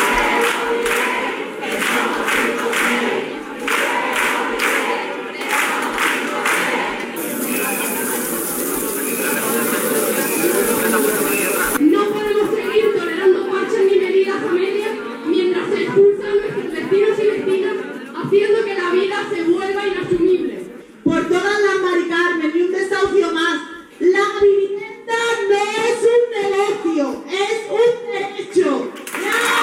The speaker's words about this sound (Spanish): en Huelva, concentración contra el negocio de la vivienda a las puertas de la subdelegación del Gobierno con estos sonidos.